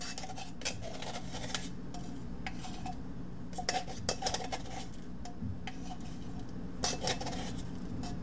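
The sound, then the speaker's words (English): Faint clinks and scrapes of a spoon against a bowl as 2 teaspoons of baking powder go into cake batter made with cake flour and whole wheat flour, with a few sharper metallic taps scattered through. “Okay, so now we're adding in the baking powder.”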